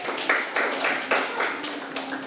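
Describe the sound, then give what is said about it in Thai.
Children in a classroom clap for a classmate who has just answered correctly. Several crisp claps fall at a fairly steady, even beat, moderately loud, with no one speaking over them. “เก่งมากค่ะปรบมือให้เพื่อนด้วยลูก”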